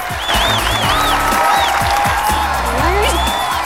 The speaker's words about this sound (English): The gorgeous Gracie steps into the spotlight, desperately trying not to giggle as the mainly male audience goes wild.